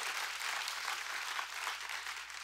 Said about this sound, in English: Can we give our kids team a big round of applause? They deserve it.